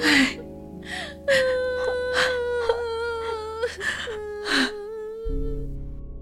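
Grieving children and their mother wail and sob aloud: high, moaning cries come in several bursts over a steady held tone, followed at the end by a low hum.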